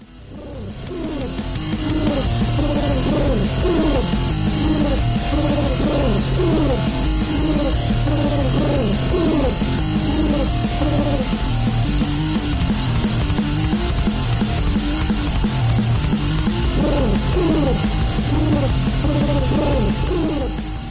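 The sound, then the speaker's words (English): Pigeons coo as the lead vocals of a Ukrainian grindcore band, with warbling coo-like calls repeating over dense, loud, distorted music that keeps going for the whole stretch. “the soothing yet diseased cooing of ratbirds”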